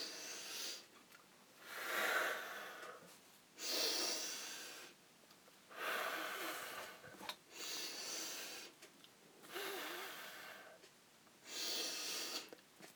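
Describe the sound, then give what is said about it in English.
Deep breaths in through the nose and out through the mouth during an exercise session: a steady series of breathy, hissing breaths separated by short quiet gaps, with no talk. “breathe in through the nose, out through the mouth. Big breathe, big breaths.”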